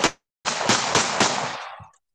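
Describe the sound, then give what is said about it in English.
Gunfire rings out as a short, sharp blast, then after a brief gap a longer, rough and loud burst of shots with a few harder cracks inside it, fading out at the end with no voices. “Pretty sure I could find out where Biden lives. Gunshots.”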